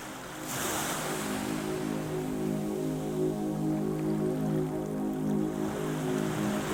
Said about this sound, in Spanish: esperó mientras escuchaba el vaivén del oleaje